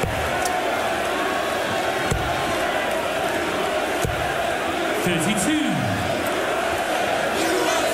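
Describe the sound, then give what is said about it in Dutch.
Darts crowd at the US Darts Masters roaring and chanting "USA" in a steady, dense din that runs throughout, with a man talking over it. “Ja, geef de mensen maar aanleiding om USA, USA te zingen.”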